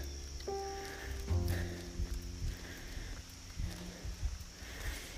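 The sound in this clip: Hooves of a horse walking up a hill, a faint, steady plodding of soft, irregular clops that continues throughout.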